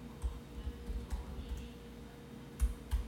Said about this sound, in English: You type slow.